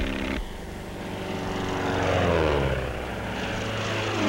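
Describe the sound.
A propeller airplane drones steadily while skywriting with smoke at speed. The engine tone is loud and continuous and shifts slightly as it flies, with no voices.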